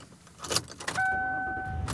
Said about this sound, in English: And I am driving home.